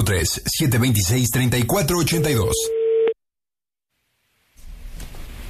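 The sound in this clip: A telephone busy tone after the caller hangs up: a steady beep begins as a voice finishes talking, then cuts to silence before low noise returns.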